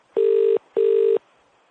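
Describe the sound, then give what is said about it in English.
Two steady electronic beeps from a telephone keypad on a call to a hotel's automated line. They are equal in length and held at one even pitch, separated by a short gap, with no voices. “Please dial 1 for reservations, dial 2 for group inquiries.”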